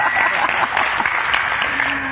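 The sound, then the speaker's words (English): Applause from a church audience welcoming first-time visitors: a continuous, even wash of many hands clapping, somewhat muffled and steady in level from start to end, with no clear voices. “How many of you are here for the first time? Hands. Okay, let's give them a round of applause.”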